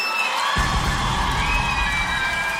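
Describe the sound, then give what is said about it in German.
A concert crowd in Aachen applauds and cheers for itself. A loud, dense wash of clapping and shouting swells in abruptly just after the start and then holds steady to the end. “Mach einmal Applaus für euch selber.”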